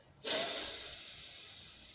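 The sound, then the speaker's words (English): A single deep breath rushes in as a loud, airy hiss that starts abruptly, then holds steady and slowly fades over nearly two seconds, with no voices. “So let's all take a breath.”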